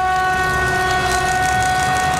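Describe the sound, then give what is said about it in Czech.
Train arriving at a station in Kutná Hora: a loud, sustained multi-note horn chord over a continuous rolling rail rumble. “To je delfín, který přijížděl do Kutné Hory. Pravda, se zpožděním, ale přijel.”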